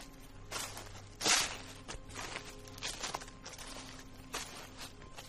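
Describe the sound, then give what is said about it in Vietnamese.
Footsteps crunch over dry leaves in a steady, even rhythm of many rustling steps, fairly faint, with one louder crunch early on. “ở bên ngoài những tiếng xào xạo vang lên đều đặn như là tiếng bước chân đang dẫm lên lá khô.”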